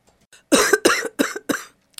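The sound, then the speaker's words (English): Coughing from a heavy smoker of fifteen years at two packs a day: four harsh, raspy coughs in quick succession, each a loud rough burst, followed by a faint short rasp at the end. “I didn't always have this cough.”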